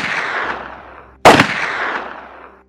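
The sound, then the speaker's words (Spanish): A single loud pistol shot fired at point-blank range cracks out mid-clip, a sharp explosive bang with a brief ringing tail, set against a low rumbling wash that fades away. “El príncipe Yusupov, preocupado, tomó una pistola y le disparó a quemarropa”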